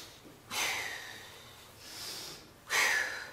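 Deep breaths in and blown out during a guided breathing exercise: three airy, hissing bursts, the first and last loud and the middle one fainter, with no talking.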